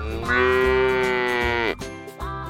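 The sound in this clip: A cow moos on a farm field where it grazes on grass. It gives one long, loud, steady low moo, followed by a rougher, lower trailing grunt.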